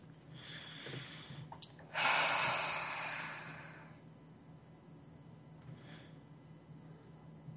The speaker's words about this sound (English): And breathe in love and grace, ease and joy. And breathe out all of that which no longer serves you.